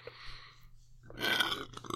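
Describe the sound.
A loud, rough burp swells after a quiet moment, from a person who has just finished eating well-seasoned food. A single drawn-out belch carries a gurgling edge.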